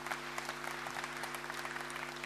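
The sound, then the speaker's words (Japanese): Steady, dense applause from a crowd approving a draft declaration at a convention meeting, an even wash of clapping with no clear break, no voices and a faint low hum beneath. “ただいまの宣言案について異議ございませんか。なければ拍手をお願いします。”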